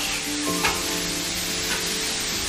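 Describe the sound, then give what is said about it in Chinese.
Side dishes sizzling as they are stir-fried in hot oil on a stove, a steady dense hiss of frying with a couple of brief clatters from tossing, fairly loud and continuous throughout. “烧灶热油，配菜一股脑倒入，翻炒全凭经验。”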